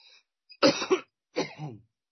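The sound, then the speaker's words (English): A harsh, throaty cough after a swallow of Jägermeister comes in two raspy clusters, the first with a double burst, heard alone without talk. “it's not bad manners. That's just a Jägermeister cough.”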